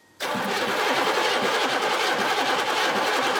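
A diesel car engine with a suspected faulty pump cranks and catches abruptly after a brief quiet moment, then keeps turning over with a loud, steady, rough mechanical clatter.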